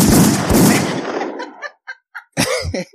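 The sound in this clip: Gunshot sound effects: two heavy, loud blasts in quick succession with a long, decaying rumble, followed by a few short, choppy bursts of sound.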